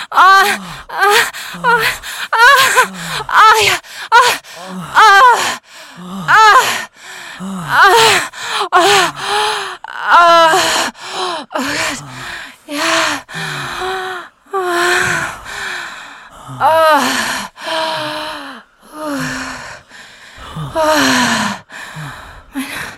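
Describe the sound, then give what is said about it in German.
Heavy breathy moaning and snorting from a person during sex. Many rhythmic voiced moans and gasps rise and fall in pitch, loud and close together, with no ordinary talk. “Schnauben und Stöhnen wird durch deine Incoming Message unterbrochen.”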